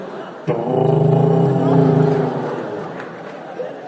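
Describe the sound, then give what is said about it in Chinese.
A voice imitates a motorcycle engine starting with a sustained, low, buzzing hum. Its rough pulsing texture swells and then slowly fades over a few seconds. “学那个摩托车发动的声音”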